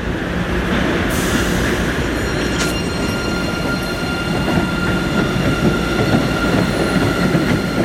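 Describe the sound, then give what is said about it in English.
A train leaves the station with a steady, loud rumble and clatter of wheels, while thin sustained high tones drone above it throughout. “there is also a violin that arises from the train as it leaves the station.”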